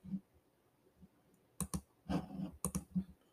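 Computer mouse clicking while picks are made in a football mock draft: a few soft, sharp clicks spaced irregularly, some in quick pairs, all faint, with no talk.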